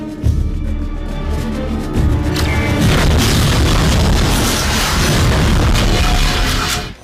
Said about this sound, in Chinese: 简妮只是吓唬吓唬江，但是他的同事却引爆了炸弹